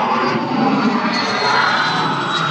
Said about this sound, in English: lovely jet. Why are the smaller jets the noisier ones? I don't know. It's like the smaller dogs are always the noisier ones. That's true. We're by a big private landing field for people in corporate jets.